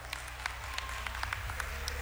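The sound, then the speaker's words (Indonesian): Faint audience applause for contest winners at a game event, a soft wash of clapping with scattered sharper claps over a steady low drone. “Tepuk tangan sekali lagi dong.”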